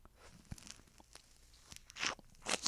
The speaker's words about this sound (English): Did you just fucking eat a lemon?